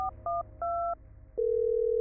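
A telephone being dialed for a call: three short touch-tone beeps of uneven length, then a steady, continuous tone that runs to the end.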